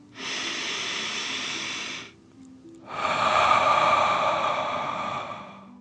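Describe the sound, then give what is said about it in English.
One deep breath is drawn in slowly and then let out in a long, airy exhale during a guided breathing exercise. After a short pause between them, the outbreath is fuller and louder than the inbreath. “take another deep dragon breath. Fill up your chest and belly in and out.”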